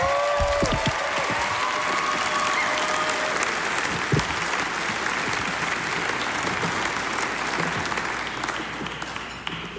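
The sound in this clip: A live audience applauds a musician after a performance, a dense, steady wash of clapping lasting about ten seconds that eases slightly toward the end.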